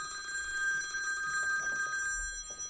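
A telephone rings for an incoming call on a 4G LTE mobile network: a steady, continuous electronic ring with bright layered harmonics runs for about two seconds and then stops abruptly.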